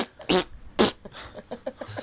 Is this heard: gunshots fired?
no